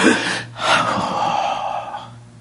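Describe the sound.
A voice imitates a forceful breath, as of God breathing into Adam: a short breathy burst, then a long rushing exhale that gradually fades.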